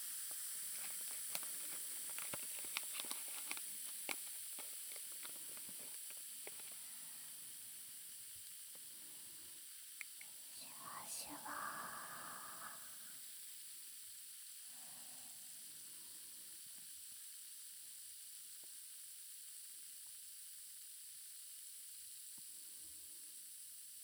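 Fizzing hiss, faint and continuous, runs steadily through the whole stretch, with scattered soft clicks and a brief brighter burst near the middle.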